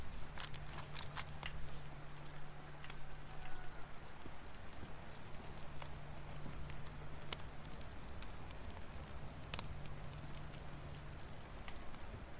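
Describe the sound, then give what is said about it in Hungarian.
Soft, steady rain patters down in a continuous quiet hiss, broken by occasional sharper drops, with a low steady hum underneath. “Akkor most már lehetne az, hogy eláll az eső, nem?”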